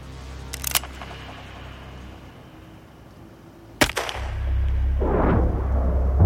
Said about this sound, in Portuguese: A bala de Marty atinge o vilão a tempo.